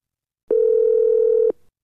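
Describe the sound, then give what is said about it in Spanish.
A telephone dial tone sounds as a recorded call begins: one loud, steady, even tone lasting about a second, then stopping abruptly with a faint trailing tail. “Ahora presiona el botón de grabar para que empiece la grabación. En este momento empieza tu llamada.”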